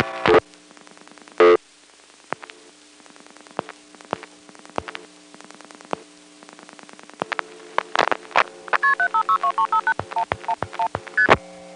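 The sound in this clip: A telephone number is dialed with DTMF tones over a line carrying hum and static. Many short tone bursts come sparsely at first, then a quick run of stepped beeps follows near the end.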